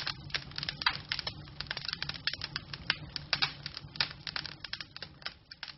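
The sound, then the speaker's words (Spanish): Fire burning and crackling, with dense, irregular pops and snaps that scatter unevenly over a low, faint rumble. “¿Qué escuchó? Claro, pareciera que es una quema.”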